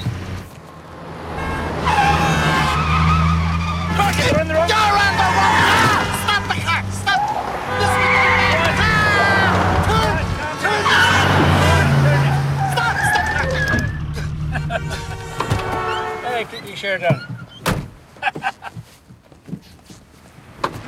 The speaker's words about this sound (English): gives a hand signal and pulls back onto the road.